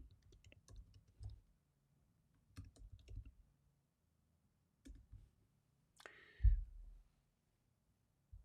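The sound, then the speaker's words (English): Typing on a computer keyboard: quiet, rapid clicks of keystrokes come in several short clusters separated by silent gaps, with a last brief tap at the end. “I'll just type that in.”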